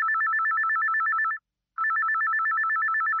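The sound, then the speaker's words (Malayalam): A telephone rings with an incoming call: two bursts of a rapid electronic warbling trill, separated by a brief pause, steady and fairly loud with nothing else heard. “നമുക്കൊരു call വരുന്നുണ്ട്, നമുക്ക് ആരാണെന്ന് നോക്കാം.”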